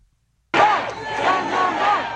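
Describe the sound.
A political rally crowd roars in cheering and applause. The loud, dense wash of voices begins abruptly after a moment of silence and holds steady to the end.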